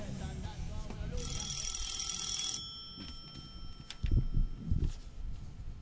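A telephone rings as a call is placed, with one bright, sustained ringing burst. Low, muffled background noise follows the ring.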